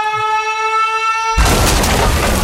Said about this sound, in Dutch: De caloriebom is ontploft.